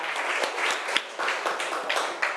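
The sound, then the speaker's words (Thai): A class applauds a group's representative with a moderate round of clapping from many hands, rising and dipping in uneven bursts without fading out. “เอาปรบมือให้ตัวแทนจากกลุ่มที่5ค่ะ”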